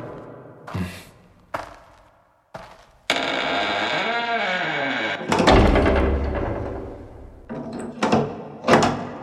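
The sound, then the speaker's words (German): A wooden door is shut and locked from outside with a few heavy thuds and clunks, spaced apart, then a voice speaks amid further knocks. “Die Holztür wurde von außen verschlossen und Leon und Mirko standen im Dunkeln.”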